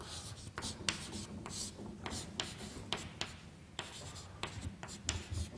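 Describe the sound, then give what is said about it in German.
Handwriting as an expression for a potential is copied out again: soft, scratchy pen strokes in many short, irregular bursts, with brief pauses between them. “Ich schreibe es einfach nochmal ab.”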